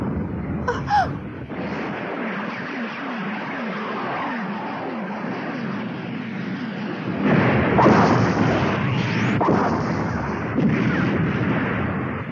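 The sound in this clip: A battle barrage in an animated film, with gunfire and artillery shots merging into a continuous loud, rumbling roar that swells heavier partway through. Sharp cracks punctuate the dense, noisy din.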